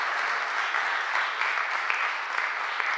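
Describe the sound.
An audience at Preston Minster applauds to welcome a speaker, with steady, dense clapping held at an even level throughout.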